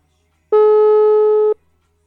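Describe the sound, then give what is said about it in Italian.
A single telephone ring tone sounds while a call is being placed: one steady, loud electronic beep at a fixed pitch, lasting about one second and heard alone with no voices. “E se io provassi a chiamare anche Luca Palla? Ma proviamo.”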